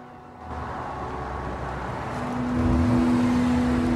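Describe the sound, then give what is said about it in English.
A car engine hums as the car drives up to a house. It is a steady low rumble that grows noticeably louder partway through. “A new day, and Peter drives Charlotte up to the house.”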